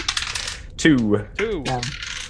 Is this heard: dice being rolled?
yes